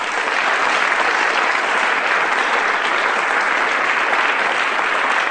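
A studio audience at a comedy panel quiz applauds to welcome the teams: loud, dense, even clapping from many hands that holds steady throughout without a break.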